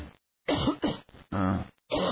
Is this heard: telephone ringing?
no